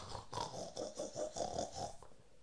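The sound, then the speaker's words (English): Pig grunting in a series of short, rhythmic nasal grunts and snorts, fairly loud, easing off near the end. “What's that? Pig. Pig.”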